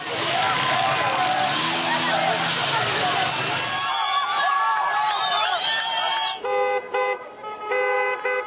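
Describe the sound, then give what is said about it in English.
Street protests over soaring fuel and energy costs, with car horns tooting repeatedly over loud crowd hubbub, voices and cheering, ending in steady, sustained horn blasts. “protests are gripping countries around the globe as the price of oil continues to rise. From Nigeria to Syria and Pakistan, people are reacting to their energy costs soaring. Here's the sound of some of those protests worldwide.”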